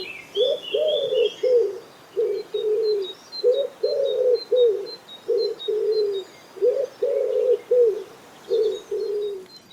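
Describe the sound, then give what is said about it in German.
Common wood pigeon calling: soft, low hooting coos in repeated rhythmic phrases, separated by brief pauses, with faint high chirps of other birds above. “Ebenfalls in der Stadt lebt die Ringeltaube und die klingt so.”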